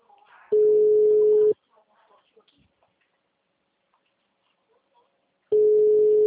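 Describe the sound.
An unanswered telephone call rings out as two steady, mid-pitched ringback tones of about a second each, separated by a long pause in which a faint voice is briefly heard.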